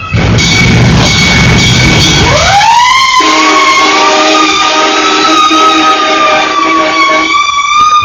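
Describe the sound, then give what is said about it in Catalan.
Emergency siren wailing during chaos after a toxic bomb at a beach: a loud tone sweeps upward out of a rough rumble, then holds a steady, high, harmonic-rich pitch for several seconds. “Se sentia soroll d'ambulància.”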